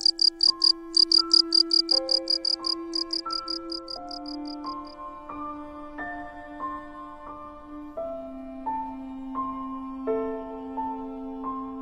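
Crickets chirp in rapid, high pulsed trills that repeat rhythmically for about five seconds and then fade out. Sustained melodic musical tones play beneath the chirping throughout.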